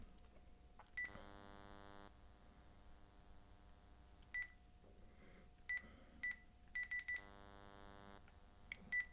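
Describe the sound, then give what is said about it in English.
Touch-tone dialing on a landline phone: several short electronic key beeps in an uneven sequence, plus a couple of longer buzzy tones, over a low steady hum, with no talk. “All right, hold on. We got to call him.”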